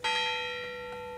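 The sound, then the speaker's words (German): A single bell strike from the castle church bells on the Schlossberg in Altenburg, a bright, steady metallic tone with rich overtones that rings on and fades slowly, alone and fairly faint. “Auf dem Schlossberg in Altenburg ist es still, sommerschattig, aber mit den Glocken der Schlosskirche schon musikalisch.”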